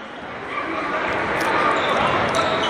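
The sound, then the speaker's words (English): A basketball is dribbled on the court during a Fox Valley Lutheran high school game. The bounces blend into a loud, steady wash of crowd noise with no distinct pauses. “Butler will slow it down as he walks it into the front court. Still on the dribble”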